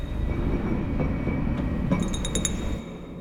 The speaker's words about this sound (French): J'ai une tasse de café, je la laisse tomber.